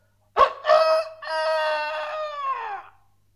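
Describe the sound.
A rooster, one of a band of travelling animal companions in a children's tale, crows once on its own. A short, sharp opening gives way to a long, drawn-out final note that trails off and drops in pitch at the end.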